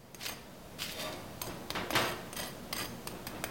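Crispy pan-fried falafel patties crunch in a run of sharp, crackly bursts at an uneven pace, some louder and fuller than others, with no talking.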